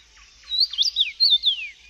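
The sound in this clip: A songbird sings a short phrase of a few high, clear, modulated whistled syllables, like an oriole's song but less flute-like, heard alone over near silence.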